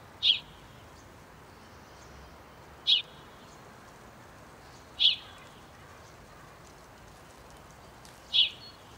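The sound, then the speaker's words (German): House sparrows and tree sparrows give four single, short, high chirps, spaced a few seconds apart, each clear against a faint, quiet background. “Das rhythmische Cheep oder Chap von Haussperling und Feldsperling sind meist den ganzen Tag zu hören.”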